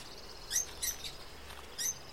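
A bird in an aviary gives a few faint, high chirps, short and spaced apart, over a quiet background with no voices.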